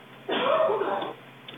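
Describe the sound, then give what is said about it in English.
A woman coughs once through a telephone line. The cough is a single short, muffled burst lasting under a second, followed by quiet line noise. “ask that lady about her cough. That sounded COVID-y.”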